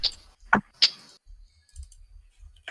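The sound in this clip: Typing on a computer keyboard: three sharp, crisp key clicks within the first second, then softer, sparser taps spread over the rest of the moment.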